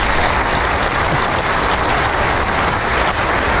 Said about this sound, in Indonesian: Iya, tepuk tangannya. Anak-anak yang luar biasa, anak-anak hebat.